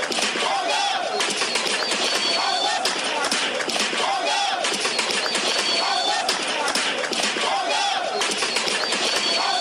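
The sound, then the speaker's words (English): Thousands of protesters in Khartoum, Sudan, sing a revolutionary song calling for reforms, a dense, continuous crowd sound with voices blending into a steady, loud wash that holds throughout. “Thousands of protesters in Sudan's capital Khartoum sang a revolutionary song that featured calls for more reforms in the country.”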